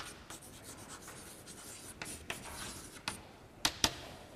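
Scratchy strokes of someone writing an equation on a board during a lecture, a faint run of rubbing marks ending with two sharper taps.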